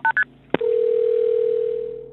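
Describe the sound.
Telephone tones from a 911 emergency call: two short dialing beeps, a sharp click, then a steady low tone held for about a second and a half that slowly fades.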